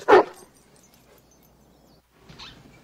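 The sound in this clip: A dog barks once, sharp and loud, in a dubbed film scene. A long near-silent pause follows, then a second, softer and shorter bark or yelp.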